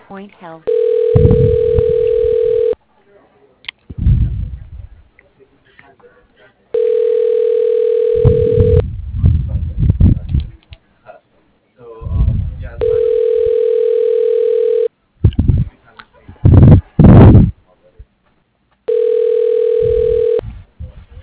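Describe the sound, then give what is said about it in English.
A telephone line rings while a call is transferred to a hospital operator. Four long, steady buzzing rings are evenly spaced, with muffled voice-like sounds in the gaps between them. “I'm going to go ahead and transfer you to the operator.”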